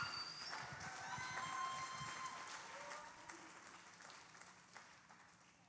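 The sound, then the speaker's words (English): An audience breaks into steady applause to welcome a speaker's wife to the stage. Many hands clap in a dense wash that slowly thins out. “So would you guys please give a big hand just welcoming my beautiful wife”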